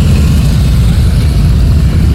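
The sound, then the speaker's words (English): Motorcycles arriving in a parking lot give a loud, continuous low engine rumble that holds steady without clear breaks. “it's the sound of the motorcycles arriving back here on Muse Place, Newfoundland Power's parking lot on Muse Place.”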